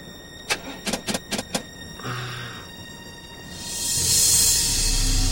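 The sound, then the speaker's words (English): A motorhome engine is being started: a rapid series of sharp clicks, then a short whir, then a swelling broad rush of noise that grows loud and holds. “Bix tries to start the motorhome.”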